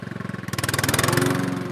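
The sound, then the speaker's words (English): Riding lawn mower engine cutting grass, a steady, rapid chugging throb that grows slightly louder partway through and holds at an even pace, with no voices. “is on a riding mower cutting his grass.”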